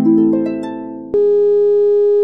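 A telephone tone sounds after a caller hangs up: a loud electronic tone with a slightly wavering first part, then a click, then a steady, unbroken held tone until the end.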